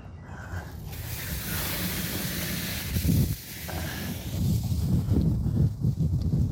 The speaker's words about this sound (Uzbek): Ha, havo bugun shamol. Endi bir soatlarda tinib qolsa kerak.